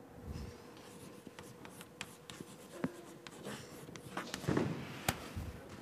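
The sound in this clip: Pen or chalk draws potential lines on a board, a faint, scratchy run of many short strokes and taps with a quiet rubbing texture between them.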